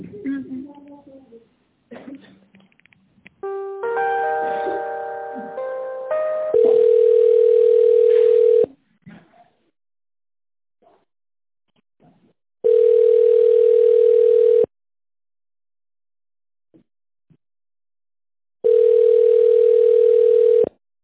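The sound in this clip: Telephone ringback tone during a call transfer: three long, steady, loud buzzing tones separated by silent gaps, following a few brief, quieter sounds at the start.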